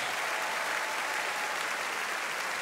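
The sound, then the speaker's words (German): Steady, dense applause from an audience at the Aachen show-jumping event, greeting German rider Christian Ahlmann and his Westphalian stallion Untouched; the clapping stays even and unbroken throughout, with no voices standing out. “Sie hören die großen Sympathien, die ihm jetzt hier in Form des Applauses schon entgegengebracht werden”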